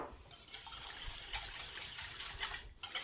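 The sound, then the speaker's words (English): Whisking milk into an oatmeal mixture for cinnamon roll oatmeal: a steady, wet swishing and stirring that continues without a break for about three seconds, with no talking. “Then I'm going to add the milk. And now I'll whisk them together.”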